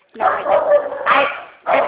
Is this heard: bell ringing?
no

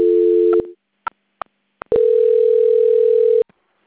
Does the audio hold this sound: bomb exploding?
no

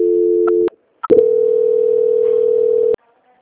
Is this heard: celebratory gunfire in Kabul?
no

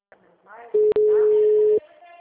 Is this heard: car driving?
no

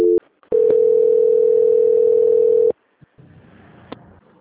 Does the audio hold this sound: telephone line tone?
yes

